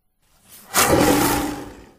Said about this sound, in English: That's the roar of a lion.